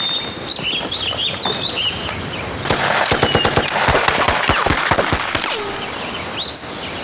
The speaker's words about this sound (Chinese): 机枪给我突突。